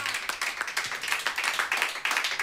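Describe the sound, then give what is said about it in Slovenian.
Applause from a concert audience as band members are introduced: many hands clapping in a dense, steady, continuous wash, loud throughout. “Silen aplavz, silen aplavz.”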